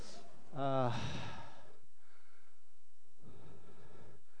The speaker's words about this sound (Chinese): 哦，才两三个楼梯，有点喘。